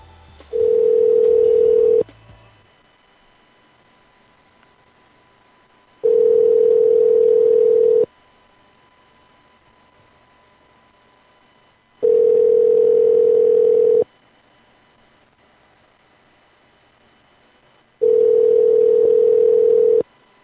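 Ringback tone while placing a phone call: four loud, steady, single-pitched tones, each about two seconds long, separated by roughly four seconds of near silence in a regular repeating pattern.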